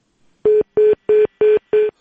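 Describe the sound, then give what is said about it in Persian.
Telephone dialing tones sound as a radio host redials a dropped call to a correspondent in Bamiyan: five loud, evenly spaced beeps at one steady pitch, each about a quarter second long, with no talk over them. “فکر میکنم که تماس ما با خبرنگار ما در بامیان قطع شد. باز هم کوشش میکنیم که با اونا تماس برقرار کنیم.”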